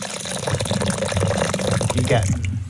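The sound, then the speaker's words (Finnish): A drink poured into a glass, the first of two being compared side by side. A steady, loud splashing gurgle runs throughout, with the liquid's pitch seeming to rise near the end as the glass fills. “Mä kaadan vielä tätä ekaa.”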